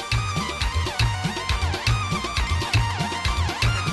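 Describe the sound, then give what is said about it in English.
Electronic one-man band music at an Afghan wedding: a steady, driving bass beat repeating throughout under a bright, busy synthesized melody with bending, sliding notes, loud and continuous. “Many Afghan weddings now feature one-man bands with lots of electronic help. It sounds like this.”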